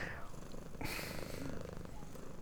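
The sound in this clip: A cat purrs in a low, steady rumble that runs throughout, broken by a short burst of noise partway through.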